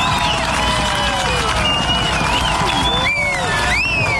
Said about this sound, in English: That's the sound as hundreds gathered yesterday afternoon at Lakeside Park in Nelson for the FIFA watch party.